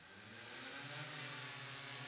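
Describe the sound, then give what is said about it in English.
A DJI Matrice 210 drone, a black machine about 2.5 feet square, hovers with a steady, loud whirring rotor roar. A low droning hum sits underneath and holds constant throughout. “The black machine is about 2.5 feet by 2.5 feet. It's 200 feet above our heads and showing clear images of a cruise ship 13 blocks away. This is a DJI Matrice 210 drone.”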